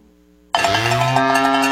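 A cow at a livestock stockyard lets out a long, loud, low moo that starts abruptly after half a second of near silence and holds steady to the end.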